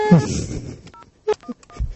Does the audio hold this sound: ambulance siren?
no